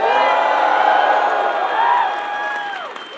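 A live fan audience at Summer Game Fest in YouTube Theater, Los Angeles, cheers loudly, with a sustained roar and shrill whoops that taper slightly toward the end.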